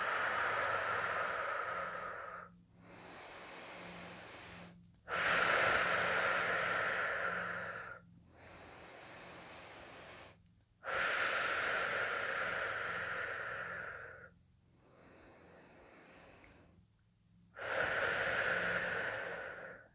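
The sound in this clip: Slow, deep breathing during a guided breathing exercise: long airy inhales and exhales alternate evenly, with louder breaths trading off against slightly softer ones, each lasting a couple of seconds, with no talking.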